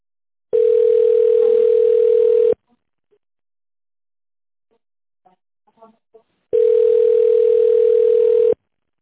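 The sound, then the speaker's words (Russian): Telephone ringback tone on a transferred call that nobody answers: two long, steady buzzing tones of about two seconds each, separated by a pause of roughly four seconds with a few faint clicks. “Переключили, и никто не отвечает.”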